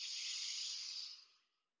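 A deep inhale during a guided breathing exercise: one long, airy, hissing breath that holds steady and then fades out over about a second and a half, with no talk.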